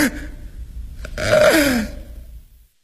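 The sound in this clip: A man gasping for breath after collapsing, a strained, breathy rasp that swells into a falling groan in the middle, then fades into faint breathing.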